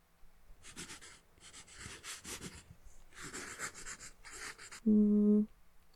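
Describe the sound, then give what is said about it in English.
Someone draws on paper, making bursts of dry, scratchy strokes of varying length, separated by short pauses. A brief, steady tone sounds near the end. The scratching is soft and close. “I'm just gonna start drawing, then it'll get easier.”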